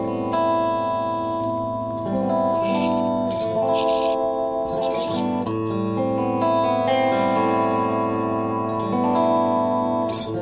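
An electric guitar with its tone knob rolled down plays a clean, glassy sound: sustained chords and single notes ring out at a steady, fairly loud level, with no talk.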